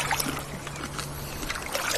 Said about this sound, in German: Es ist wunderschön hier. Wir paddeln jetzt hier so am Ufer entlang.